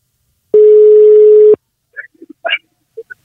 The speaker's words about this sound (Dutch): Oké, we gaan hem bellen.